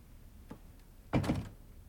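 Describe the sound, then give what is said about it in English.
A room door pulled shut behind people who have just left: a faint click, then a single solid thunk with a short rattling tail, alone in otherwise quiet surroundings. “Michael and George leave, and Barry closes the door after them”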